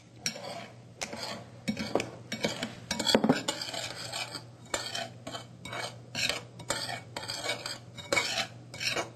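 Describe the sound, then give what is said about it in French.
Stirring a mixture of sugar in a bowl with a utensil, many rhythmic scraping and clinking strokes in quick succession, moderately loud, with brief pauses between bursts. “Est-ce que tu veux mélanger? Oui. On essaye d'avoir un mélange homogène.”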